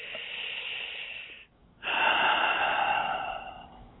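Deep breathing during a guided invocation with eyes shut: two long, soft, airy breath sounds divided by a short pause, the second fuller and longer, with no voices.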